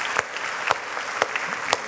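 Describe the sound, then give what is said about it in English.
Applause from a church audience: dense, steady clapping with a few sharper accents at regular intervals and no voices heard. “Round of applause.”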